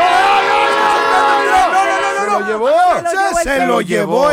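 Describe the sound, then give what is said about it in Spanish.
A train passes with its horn blaring, a loud sustained tone that gives way to excited shouting voices with sharply sliding pitch. “Se lo llevó el tren.”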